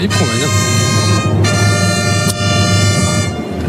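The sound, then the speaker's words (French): Bugle call (clarines) sounds at a bullfight: bright, brassy held notes ring out loud and full, broken by two brief pauses, over steady background noise. “Clarines qui sonne.”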